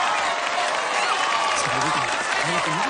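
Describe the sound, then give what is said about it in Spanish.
An audience applauds a musician arriving on stage, a steady wash of many clapping hands that stays level throughout, with some voices mixed into the crowd noise. “Todos aplauden al músico.”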